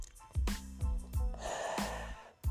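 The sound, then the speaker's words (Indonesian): Sharp breaths drawn in, a few quick gasping inhales with a snorting, breathy edge, fairly loud and with no talk over them. “tarik nafas”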